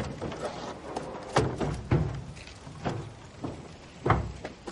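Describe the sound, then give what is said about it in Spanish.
Wooden chest being opened, a chest holding three bolt-action rifles: a few hollow wooden knocks and thuds, with scraping handling noise between them. “abre un arca de madera en la que hay tres fusiles de cerrojo”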